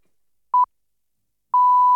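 Radio news time signal marking the one o'clock news on Dutch public radio: a short double pip, then after a pause a long, steady, mid-pitched tone running to the end.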